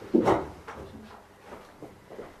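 A door being shut: one solid thump at the start, followed by a few fainter, softer knocks and rustles.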